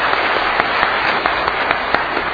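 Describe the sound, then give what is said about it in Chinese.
Applause at a church gathering welcoming first-time visitors: steady, dense clapping from many people, even in loudness throughout. “对，我们一同鼓掌欢迎他们。”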